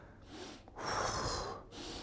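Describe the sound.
A voice imitates a deep breath with breathy rushes of air and no words: a softer intake, then a louder, longer hissing breath, then a shorter one.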